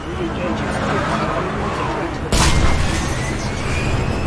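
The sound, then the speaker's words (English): A video game shuttle takes off and bumps into a wall: a steady, dense rumbling noise runs for about two seconds, then a single sudden heavy boom hits and leaves the rumble louder afterward. “I guess there was a shuttle that took off, but it kind of bumped into the wall as it left.”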